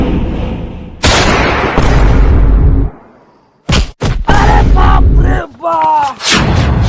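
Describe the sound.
A gunshot fired into the air: a loud booming blast with a long, decaying rumble, followed by a few more sharp bangs and a burst of harsh noise.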